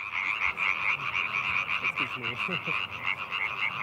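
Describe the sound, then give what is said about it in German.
About 30 European tree frogs croaking together at night, a dense chorus of rapid, repeated nasal calls that pulse continuously throughout with no voices. “Ja, faszinierend finde ich immer so, es ist Stille, einer fängt an und 100 kommen dazu. Etwa 30 Laubfrösche performen heute.”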